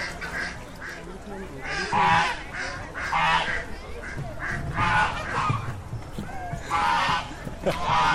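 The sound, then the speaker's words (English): Geese honk among a large gathering of at least a hundred ducks, geese and other water birds, with loud overlapping honks rising in repeated bursts over a steady bed of chattering bird calls. “Okay, there's at least 100 ducks, geese, and other water birds.”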